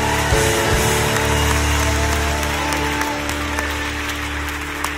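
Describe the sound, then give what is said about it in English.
An audience applauding and cheering in praise during a church service, a steady, sustained wash of clapping and crowd noise that stays loud for the whole stretch. “Come on, let's lift up the loudest praise we can till the neighbors can hear it.”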